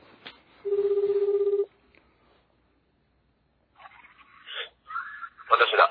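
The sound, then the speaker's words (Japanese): Ringback tone of an outgoing telephone call: one steady buzzing ring lasting about a second, then silence, followed later by a few muffled bursts of sound. “出るかな、とっちゃん。”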